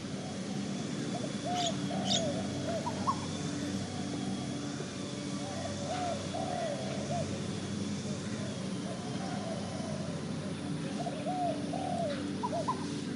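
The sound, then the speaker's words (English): Quiet ambience of a cemetery park surrounded by residences, with doves cooing in a few soft repeated phrases and brief high bird chirps over a steady low background hum. “It's serenely quiet here, and for a park surrounded by residences, it's a sound spa for your ears.”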